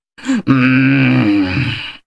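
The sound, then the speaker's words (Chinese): A human voice imitates the furious panting of an ox: a short, sharp intake, then a long, strained, groaning exhale that stays loud and level before trailing off. “纣王气得呀，像牛喘气差不多少。”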